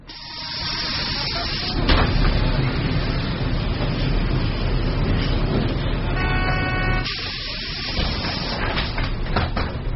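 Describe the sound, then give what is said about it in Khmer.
A large blue city bus arrives on a major boulevard served by a daily bus line, heard as steady engine rumble and road noise that swells after about two seconds, with hissing and a brief tonal whine later on. “នេះគឺជាសម្លេងបង្ហាញពីការមកដល់របស់រថយន្តក្រុងពណ៌ខៀវធំមួយនៅលើដងផ្លូវម៉ាស៊ីតុង”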